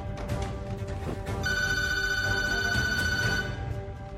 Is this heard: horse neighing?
no